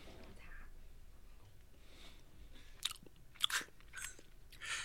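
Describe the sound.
Someone chews a chocolate brownie, a faint, soft mastication with a few sharper crunchy bites near the end.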